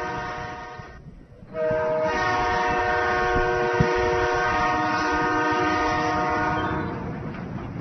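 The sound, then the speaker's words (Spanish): A passing train with its horn sounding in a long, loud, steady chord over rumbling wheels. The sound swells after a quieter first second and a half, holds, then eases slightly near the end. “¿Qué es ese sonido? Parece un tren. Salgamos a ver.”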